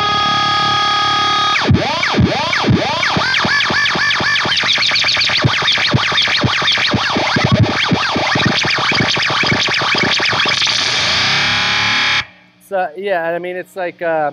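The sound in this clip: An electric guitar runs through a delay pedal as repeating echoes pile up in real time into a dense, swirling, sustained wash of overlapping notes. The effect cuts off abruptly near the end, and a voice then speaks briefly.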